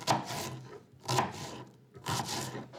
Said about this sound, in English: Today, I'm making chili. You make chili with beans, beef, and tomatoes. First, you chop an onion.